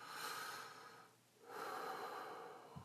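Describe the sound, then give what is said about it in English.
A person takes a deep breath, faint and airy. A long breath is followed by a short pause and then another long breath. “Take a breath again. One more time.”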